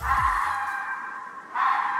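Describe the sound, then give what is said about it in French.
A fox's cry: a harsh, high shriek held for over a second, broken off briefly and then resumed, loud and on its own without talk. “savez-vous comment on appelle le cri d'un renard?”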